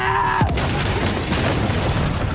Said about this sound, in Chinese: 腾坤被炸了！